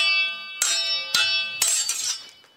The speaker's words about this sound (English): It's swords in a sword fight.